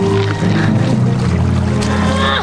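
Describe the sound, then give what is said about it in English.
Oars working a rowboat through choppy water, a loud, continuous wash of sloshing and splashing with a steady tonal hum underneath throughout. “She pushes off with an oar. As she starts to row with the pair, she loses her grip on one, quickly scoops it out of the water, and yanks off her mittens. She resumes rowing.”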